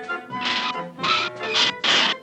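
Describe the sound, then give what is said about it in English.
Fake diamond bracelet stones scraped across glass: four short, harsh, high-pitched scraping strokes in quick succession, each a brief burst of grating noise. “These phony stones won't even cut glass. See? What did I tell you? Fakes.”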